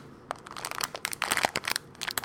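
A bag of walnuts being shaken gives a dense, crinkly rattle of many quick clicks and crunches, quiet and uneven, with no voices.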